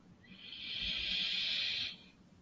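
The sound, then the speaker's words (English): A deep breath is drawn in before chanting Om: one soft, steady hissing inhale that lasts about a second and a half, then fades out. “Take a deep breath in.”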